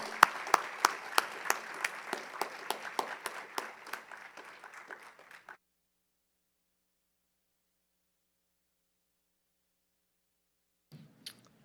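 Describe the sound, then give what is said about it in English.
Audience applause welcoming a speaker, with clapping that gradually fades out over about five seconds, then silence and a brief faint sound at the end. “So with that said, can we put our hands together and offer a warm welcome for Lloyd Kim?”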